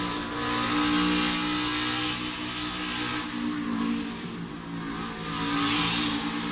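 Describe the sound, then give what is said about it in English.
A race car engine drones at a fairly steady pitch as the driver, pushed up out of the groove and close to the wall, comes out of the throttle. The engine sound sags briefly in the middle, then swells again. “You heard how long he was out of the gas. He got pushed up out of the groove, had to come out of the throttle where he was going to hit the wall.”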